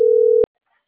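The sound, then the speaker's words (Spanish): A steady, mid-low telephone tone sounds while a number is being dialed, holding one even pitch for under half a second before a click cuts it off abruptly. Near silence follows, with no voices. “Es el 523 porque le estoy marcando el número.”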